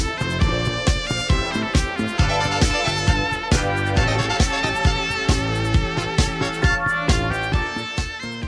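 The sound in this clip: Electronic synth-pop track from 1979 by a Japanese electronic band: layered synthesizer chords and melody over a steady, evenly pulsed beat, with many regular percussive hits at constant loudness throughout.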